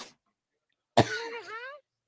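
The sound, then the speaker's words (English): A single harsh cough right into a microphone bursts out suddenly and trails into a strained, voiced rasp lasting under a second, then silence. “Sorry, I'm coughing right in the mic, huh?”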